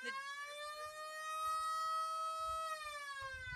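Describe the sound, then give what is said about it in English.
A siren of the kind prized in the lowrider community wails as one steady harmonic tone. It rises gently, holds, then dips near the end, sounding loud and alone over a faint low rumble. “That's a siren. That's a classic sound of the lowrider community.”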